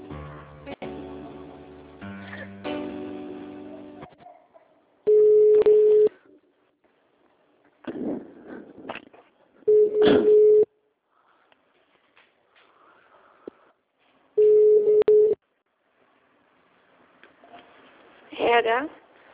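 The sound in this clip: A telephone call being placed: a burst of electronic dialing beeps, then three long, steady ringing tones spaced several seconds apart, with short bursts of voice in the gaps between rings.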